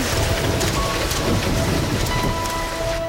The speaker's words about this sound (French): Même sous cette pluie ?